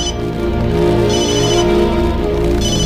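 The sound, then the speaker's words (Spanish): A telephone rings loudly and steadily, a sustained harmonic bell tone that fills the whole moment without a break. “Es de casa. Quizá necesiten algo. Es un momento, viejo loco. No lo interrumpa. No coja el teléfono.”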